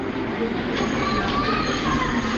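Steady rumbling hum of a train standing in a railway station, a continuous broad drone at even loudness throughout, with no distinct clatter or rhythm.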